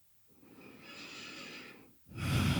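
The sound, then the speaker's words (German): Slow, deep breathing in and out during a guided relaxation: a long, airy breath with a nasal, snort-like rasp, a brief pause, then a louder, fuller breath. No one speaks. “Atme tief ein und aus.”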